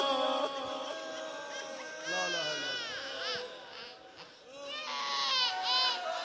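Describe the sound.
A baby cries in loud, wavering, high-pitched wails that bend up and down, sustained almost without pause, with brief whimpering dips between the stronger sobbing bursts.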